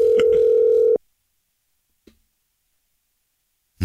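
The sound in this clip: A telephone dial tone sounds while a listener is being called: a steady, loud, unbroken tone for about a second that cuts off abruptly. Near-silence follows, broken by one faint click, then another sound begins at the very end.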